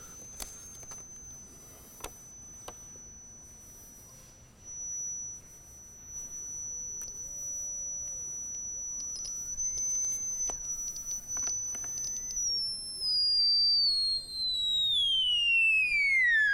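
A theremin is tuned. Its thin, steady high whine holds for a long stretch, then slides downward near the end. Faint lower wavering tones and a few soft clicks are heard along the way.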